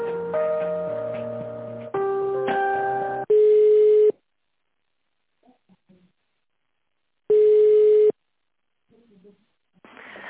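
Telephone tones during a call transfer at a Russian mortgage fund office: a short hold melody of steady electronic notes, then long, loud, steady ringing tones separated by silence.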